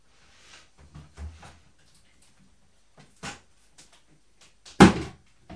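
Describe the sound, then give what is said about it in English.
A washing machine door handled at home: a series of faint clicks and knocks, then one sharper, louder thump near the end, with no talk. “A door. The door of the washing machine, is it closed? No.”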